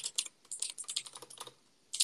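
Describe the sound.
Rapid typing on a computer keyboard: a quick, uneven run of many light clicking keystrokes, a short pause, then a few more keystrokes at the end.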